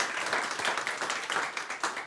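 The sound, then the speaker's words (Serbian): An audience applauds at an evening studio show with a tavern-style setting. The clapping is dense and steady, a continuous patter of many hands at moderate loudness. “evo, neka sudi vaš aplauz ovoj večerašnjoj emisiji.”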